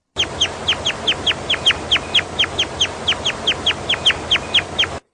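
Crossbill calls: many sharp, high chirps, each sliding downward, repeated in a quick, steady rhythm throughout, with no other voices.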